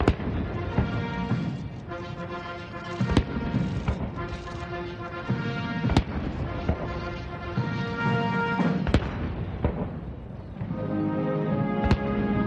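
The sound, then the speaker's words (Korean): Cannon blasts of a 21-gun salute at a White House welcoming ceremony: five sharp booms spaced about three seconds apart over steady band music. “약 27분간 진행된 행사는 양국 국가 연주와 21발의 예포 발사, 미국 육해 공군과 해병대 의장대 사열 등의 순서로 진행됐습니다.”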